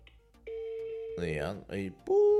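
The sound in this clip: A telephone ringing tone follows dialing on an international call to Elchingen, Germany: a long, steady, mid-pitched tone, then a brief voice, then another steady tone starts.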